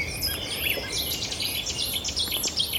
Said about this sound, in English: Oh, and there's a Setty's warbler. I always call them Chetty's warbler, but it's a Setty's warbler, really sharp.